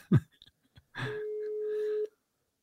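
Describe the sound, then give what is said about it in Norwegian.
Outgoing telephone call ringing out: one steady mid-pitched ringback tone lasting about a second, preceded by a few brief, faint voice sounds. “Ok, vi ringer Bengt.”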